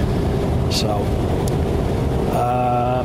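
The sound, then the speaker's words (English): Steady, broad low rumble of road and engine noise inside a car while driving, with a man talking over it throughout. “haven't recorded a clip this way while I'm driving, especially in quite some time. It's been probably years since I've done this.”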